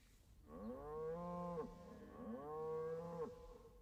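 Cattle mooing, two long, low, drawn-out calls, each swelling steadily and then cutting off, with a brief pause between them.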